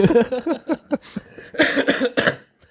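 Coughing up phlegm in a rapid run of many harsh coughs in two bursts. The second burst is louder and breathier than the first.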